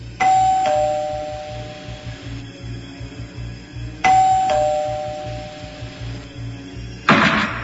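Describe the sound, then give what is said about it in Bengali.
Doorbell ringing twice, each ring a clear two-tone ding-dong, the higher note falling to a lower one, with a short noisy burst closing the sequence. “এমন সময় calling বেলের আওয়াজে চমকে উঠল সে।”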